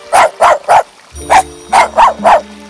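A small dog barks seven sharp, high yaps: three quick ones, a short pause, then four more in an even rhythm. Each bark is loud and clipped, with a faint low hum in the background.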